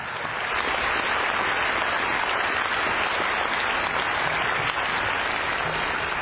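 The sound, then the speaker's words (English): A morning audience gives a speaker a warm welcome with sustained applause, a thick, steady clatter of many hands clapping at a constant level from start to finish. “Let's give him a warm welcome.”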